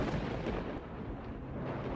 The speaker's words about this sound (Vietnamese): Tầng không bỗng nhiên động, ì ùng, như là có sấm động cửu thiên, nghe đến rùng mình.